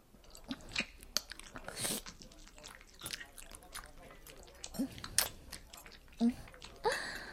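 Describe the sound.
Candied hawthorn on a skewer is chewed and eaten, with many soft, irregular crunches and moist, squishy mouth sounds, fairly faint, and a voice heard at times.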